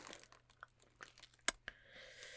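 Pink tissue paper crinkling as a mail package is unwrapped: soft, quiet rustles and crackles broken by a couple of crisper snaps.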